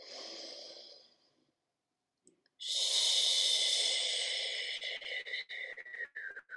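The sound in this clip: Deep breathing during a guided floor-exercise session: a steady, airy breath, a short silent pause, then a longer, louder breath that breaks into a few ragged pulses toward the end. No talking.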